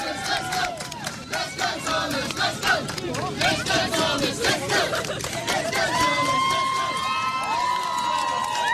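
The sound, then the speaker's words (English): A street crowd in the Midlands cheers and shouts as the Olympic torch is handed to a young torchbearer with cerebral palsy. Many voices form a loud, pulsing roar that continues without a break. “This is the moment that they handed the torch over to him just now.”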